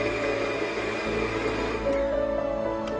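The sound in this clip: An electric dough mixer works its hook through dough that has gathered into a sticky ball around it, giving a steady, even motor whir with a constant humming drone.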